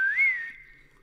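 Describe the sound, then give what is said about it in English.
A person whistles a family signal whistle, a single clear note that bends slightly upward and then settles into a steady held tone for about a second. “No, that's our family whistle. It's worked for decades for us.”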